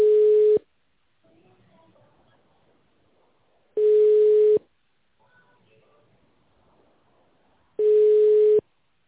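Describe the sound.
A telephone ringback tone plays while a call connects: three steady, single-pitch tones, each under a second long, about four seconds apart, with near-silence between them.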